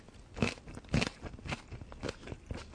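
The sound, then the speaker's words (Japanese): Crisp crunching as fresh green onion is chewed: a quiet, steady series of crunchy bites about half a second apart, with the first two the loudest, and no talking. “父さんのネギはシャッキリするんだよな。”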